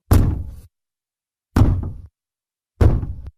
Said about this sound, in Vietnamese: Bỗng nhiên tiếng gõ cửa vang lên từng tiếng một.